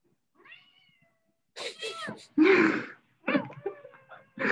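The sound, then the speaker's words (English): A cat meows in a series of varied, wavering calls, faint at first and then several louder, higher-pitched meows in short bursts with pauses between them. “That's my cat.”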